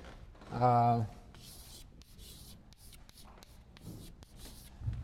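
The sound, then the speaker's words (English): A word is written by hand in a few short, scratchy strokes separated by brief pauses, after a voice speaks briefly at the start. “I'll write the word.”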